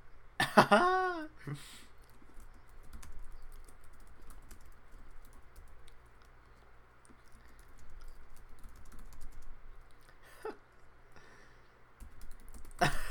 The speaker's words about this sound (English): Write that down, write that down. I'm writing it down.